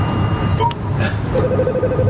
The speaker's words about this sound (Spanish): Bezan cuelga y Locke recibe una llamada.